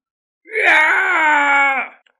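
A dragon-headed ancient king screams in pain after his finger is snapped off. The cry is one drawn-out, strained and harmonic note lasting over a second, loud and alone, that tapers away at the end.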